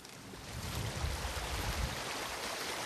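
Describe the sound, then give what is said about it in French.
Rushing water from a mountain torrent carrying milky glacial meltwater, a steady, dense roar with a deep low rumble that holds throughout without pause. “Toujours ce torrent avec cette eau laiteuse, parce que il charrie quoi là au-dessus? On a un glacier évidemment.”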